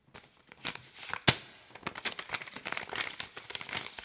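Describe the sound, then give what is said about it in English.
A sealed paper envelope being opened at a film awards announcement makes a busy run of dry crinkling and crackling paper, with one sharp, loud rip early on and many smaller crackles following, heard without talk. “And I'm opening this envelope. It's sealed and...”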